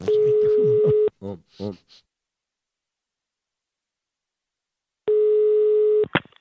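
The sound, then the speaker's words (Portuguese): A telephone call is being placed, with the line tones heard alone: a long steady tone burst of about one second, a few short blips, then about four seconds of silence before a second identical tone burst. “E agora eu vou ligar pra Wanda.”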